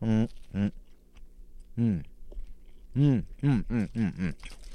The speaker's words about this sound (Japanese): スライムの、色と形をした肉まんなんですけどもね、冷えた、肉まんはどんな味？食べてみよう。